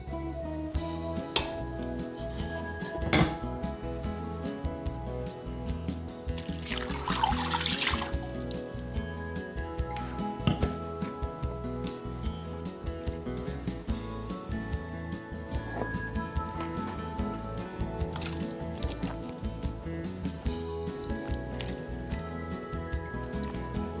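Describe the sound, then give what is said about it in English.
Browned pheasant and other ingredients go into a crock pot, heard as faint, scattered clinks of utensils, soft wet squishes and light trickles of liquid over a steady low background hum. “Now that we have our pheasant browned, we're just gonna put everything in the crock pot, except for our lime juice and cilantro.”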